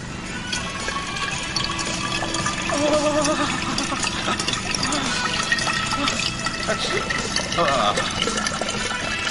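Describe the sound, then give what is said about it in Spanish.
Liquid pours steadily into a bottle until it is nearly full, a continuous splashing, gurgling stream that runs for several seconds while voices talk over it. “La botella casi se llena y yo continúo.”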